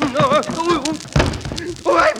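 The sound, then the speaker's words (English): A person falls down in a Christmas comedy scene with Santa, landing with one brief, dull thud between lively talking voices. “Oh, I fall down. Did you hurt yourself? I hurt myself.”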